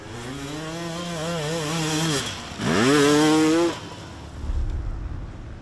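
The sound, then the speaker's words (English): Motorcycle engine during a race, catching and revving up before its pitch sinks as it stalls, then a second loud burst of revving that cuts out again, leaving a low rumble. “as soon as I press the button, my bike start like starting, but then stalling again.”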